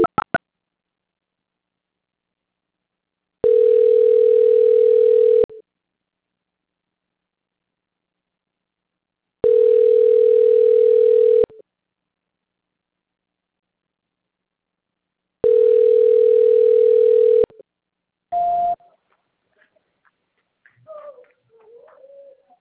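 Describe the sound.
A telephone call transfer tone sounds as three long, steady mid-pitched beeps of about two seconds each, separated by silence. A short, slightly higher beep and faint scattered noise follow.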